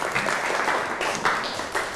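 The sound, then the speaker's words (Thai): Students in a classroom clap for themselves after answering well in a lesson, a steady patter of many hands applauding with no talking over it. “ทุกกลุ่มเก่งมากปรบมือให้ตัวเองหน่อย”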